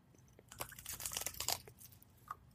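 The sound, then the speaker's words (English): Someone bites into hot food. A quick cluster of crisp crunches and crackly chewing sounds stays fairly faint, and one last small crunch follows after a brief pause. “Oh god, that's hot. Anything yet. Oh, I bit right into it. I immediately swallowed.”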